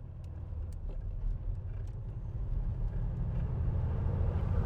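Low, steady engine and road rumble of a car driving home through a pitch-dark night, faint and even, swelling slightly toward the end.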